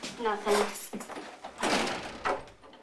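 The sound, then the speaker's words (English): A front door sounds as someone walks in, giving a few clunks and rattles of varying strength, partly under a voice. “Wendy walks in the front door.”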